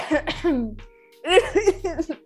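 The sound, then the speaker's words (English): A person fakes a cough, producing two short clusters of voiced, throaty coughs separated by a brief pause, loud and close with a harsh, vocal edge. “I can't fake cough properly.”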